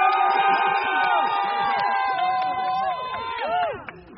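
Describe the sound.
Amazon warehouse workers on Staten Island cheering after voting to unionize: loud overlapping shouts, whoops and cheers from a crowd, easing off slightly near the end.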